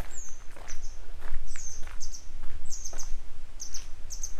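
Grey wagtail calling as it follows along and flies overhead: many sharp, high chirps in short bursts over a steady low rumble.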